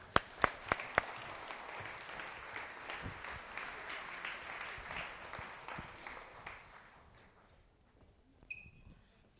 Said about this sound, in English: So welcome the first time ever our youth choir. Would you give them a hand?